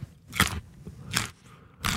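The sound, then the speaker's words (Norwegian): Crunchy bites into in-season Norwegian carrots: three loud, sharp crunches spaced at fairly even intervals, each a brief crackling snap with quiet pauses between them. “Her en lydprøve av Norske Gullrøtter I sesong, utført av Johannes Høsflot Klæbo.”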